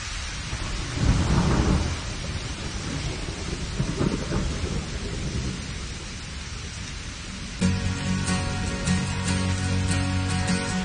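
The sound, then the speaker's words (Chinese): A thunderstorm brings deep rumbles of thunder, loudest early on and again midway, over a constant hiss of falling rain. The texture shifts abruptly near the end. “下雨了”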